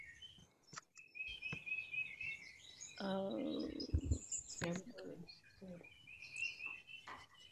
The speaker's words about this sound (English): I hear the birds singing.